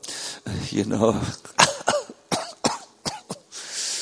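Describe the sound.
Audience members coughing: several short, sharp coughs follow in quick succession after a throaty, voiced sound at the start, alone and fairly loud.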